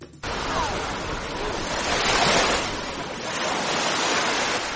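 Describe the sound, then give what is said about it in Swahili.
Gentle Indian Ocean waves lap the shore beside Fort Jesus in Mombasa, a continuous washing surf with soft swells that rise and fall, building around the middle and again near the end. “Nimesimama kando kando ya bahari Hindi, mawimbi mepesi yakipiga hadi ufoni.”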